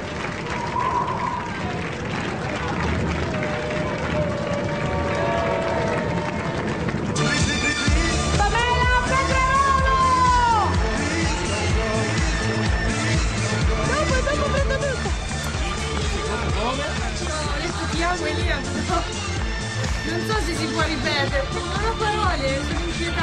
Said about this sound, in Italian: vi presento con questa introduzione bellissima dalla fattoria del non so quanto 2000, però questa ci stava molto bene, eh. Ascoltate.